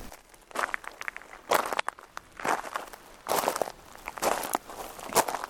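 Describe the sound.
Footsteps of people walking outdoors through a village toward a church: a steady series of crunchy, moderately loud steps with no talking.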